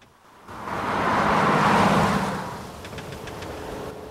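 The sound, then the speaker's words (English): Cars motor past on a road, a broad rush of engine and tyre noise swelling and then easing, followed by a steadier, lower drone. “2 cars motor by.”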